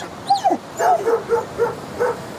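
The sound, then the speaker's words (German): Dogs crammed in the cargo hold of an overloaded ship yapping and whining, a string of short, high-pitched yelps and whimpering barks in an uneven rhythm. “Die Hunde vermehrten das allgemeine Chaos durch ihr Geheul, Gekläff und Gebalge.”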